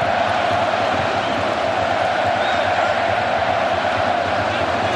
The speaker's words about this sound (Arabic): صوت بوسني يعلو الآن. جمهور البوسني والهرسك الآن صوتهم أعلى، صوتهم أكثر وضوح، صوتهم مسموع الآن هنا في لوس أنجلوس.